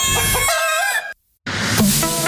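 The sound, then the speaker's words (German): Rooster crowing, two loud, drawn-out calls separated by a brief silence, harsh and full with a wavering, strained pitch. “MacGockel. Hier kräht der Geschmack.”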